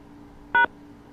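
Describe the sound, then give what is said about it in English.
A single short electronic keypad tone sounds as the hash key is pressed on a telephone voicemail system. It is one brief, steady beep over a faint background hum. “I mashed the hashtag and I'm trying to send a message on the voicemail system. Press 1 and star and 2”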